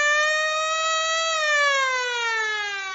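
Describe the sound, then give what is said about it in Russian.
A powerful siren blares as one continuous, loud, harmonically rich tone that holds steady at first and then slides gradually downward in pitch. “Все звуки заглушил мощный рев сирены. Сигнал был коротким, секунды на две, и повторился дважды.”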